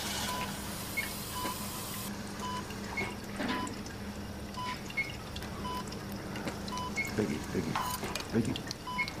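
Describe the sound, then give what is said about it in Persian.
Surgical suction drawing up fluid during an operation, a steady liquid hiss and slurp running throughout, with regular short beeps repeating at an even pace over it. “سکشن بالا بکشه. بالا بکشه. بله بالا مواظب باش فشارش نره باش.”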